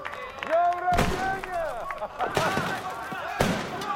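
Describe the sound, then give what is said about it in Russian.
A box of fireworks is lit and goes off with a few sharp, loud bangs spread across the stretch, with whistling and crackling between them and people talking over the noise. “отец Макса поджигает коробку с фейерверком”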